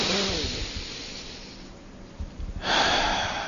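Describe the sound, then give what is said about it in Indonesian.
A long, deep breath drawn in by a man during a religious lecture, heard as a soft, breathy airflow hiss that swells into a loud, rushing breath near the end. “Tapi setidaknya kita bisa masih bisa menarik nafas panjang seperti ini”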